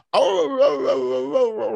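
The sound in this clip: A person's voice imitates a dog's moan: one long, sustained, wavering wail with a rich, buzzy tone that starts abruptly and holds for over a second.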